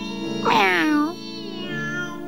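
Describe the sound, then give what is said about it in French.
A person imitates a cat's meow: one drawn-out, nasal meow whose pitch rises and then falls, sounding loud over a steady tonal background. “Octave se met à miauler comme lui pour l'appeler”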